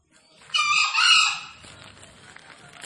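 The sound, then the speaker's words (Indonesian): A wild green junglefowl, released free, calls with a single hoarse, harsh crow in two quick surges, fairly loud and brief, then only faint background noise remains. “saling saut-sautan dengan ayam hutan yang lain, si Bina, si Rangga, Bosman dan si Giant.”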